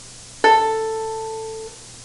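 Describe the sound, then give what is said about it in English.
An open A string sounded on a stringed instrument fitted with finger tapes: a sharp-onset single note that rings clear and steady, then gradually fades over a little more than a second, heard alone. “We're going to start with the A string, which is the second string from the top. It sounds like this.”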